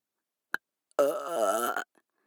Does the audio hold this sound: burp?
yes

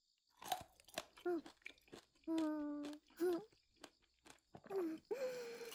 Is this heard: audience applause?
no

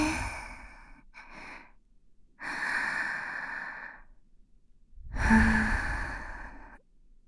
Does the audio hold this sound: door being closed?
no

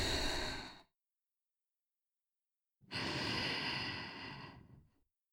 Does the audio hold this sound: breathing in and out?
yes

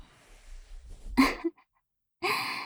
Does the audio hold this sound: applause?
no

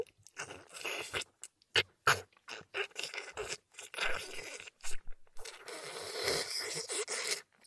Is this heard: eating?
yes

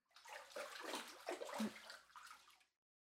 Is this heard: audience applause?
no

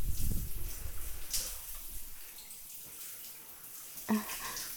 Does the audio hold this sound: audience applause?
no

